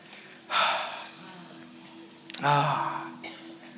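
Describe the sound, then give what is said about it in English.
An audience at a worship service breathes out together in two loud, breathy whooshes, each swelling and fading over about a second, with a low tonal hum beneath. “can you breathe out for me today? Come on, everyone.”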